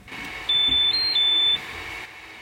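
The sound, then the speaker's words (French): A 3D printer beeps when a print finishes, giving a short run of high-pitched electronic tones, one pitched slightly higher in the middle, over a quiet hum. “Quand l'impression est terminée, la machine sonne. Écoutez.”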